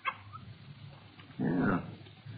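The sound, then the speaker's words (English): A young female puppy makes a brief yip, then a louder, rougher burst of whimpering bark, with quiet stretches around them. “It's a little girl. Just a puppy.”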